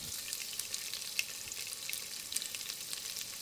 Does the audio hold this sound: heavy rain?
no